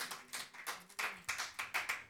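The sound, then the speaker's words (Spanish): Church audience clapping their hands together in a steady, rhythmic beat of sharp claps, kept fairly faint throughout with no talking over it. “Démosle palmas al Señor si usted se alegra por eso.”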